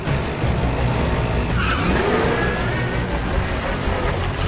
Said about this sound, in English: Daniels reverses his Mercedes out onto the street.